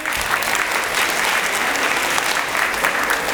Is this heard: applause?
yes